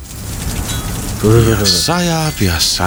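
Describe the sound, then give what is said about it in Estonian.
Rain falls in a steady, even hiss of drops on a surface, and a voice starts up over it partway through. “Sajab. Eks ole?”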